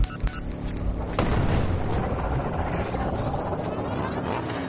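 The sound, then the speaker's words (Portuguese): Missiles launch and explode in combat: a sharp, loud blast followed by a deep, rumbling roar that stays heavy and gradually settles. “Preparar armas. Objetivos aqui dos metros de distância. Ativar mísseis.”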